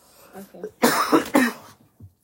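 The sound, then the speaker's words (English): A person blows a congested nose in a forceful, noisy blast lasting under a second, rising from and trailing off into brief, soft vocal murmurs. “I'm going to blow my nose because it's...”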